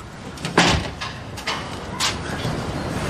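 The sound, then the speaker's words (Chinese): A door is shut and locked, giving a few distinct knocks and clacks spaced over several seconds against a steady background hiss. “我锁门了啊”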